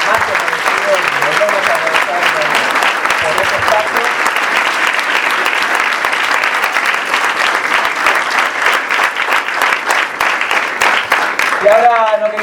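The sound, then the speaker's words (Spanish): Crowd applause at a public gathering of social organizations: loud, dense clapping holds steady for the whole stretch without a break. “También un aplauso para ellos, digamos.”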